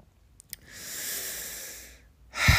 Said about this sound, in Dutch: Gewoon ademhalen.